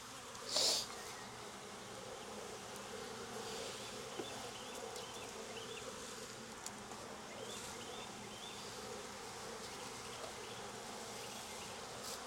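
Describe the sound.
Honeybees buzz in an open hive during an inspection with smoke, among frames of capped brood. The drone is steady and dense throughout, with one brief louder burst near the start. No one talks.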